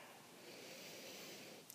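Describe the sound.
Slow, deep breathing in and out during a guided breathing exercise: a soft, airy hiss that holds steady for the whole moment. It stays faint, with no talking over it.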